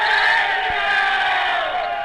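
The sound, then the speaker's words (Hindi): A crowd chants a Hindu religious slogan during the Prime Minister's speech at an election rally in Khunti, a dense, loud, steady roar of massed voices with no break. “Khunti में प्रधानमंत्री के भाषण के दौरान जय श्री राम के नारे लगाए गए।”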